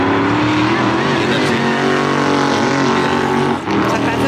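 Race cars roar around the Bathurst motor race circuit in a loud, continuous engine drone with steady harmonic tones, dipping briefly near the end before the roar resumes.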